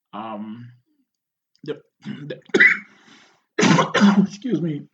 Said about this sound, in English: Sorry, I just got something in my throat.